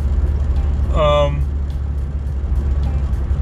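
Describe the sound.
Steady low engine and road rumble from a car driving at night, continuous and fairly loud beneath a voice talking.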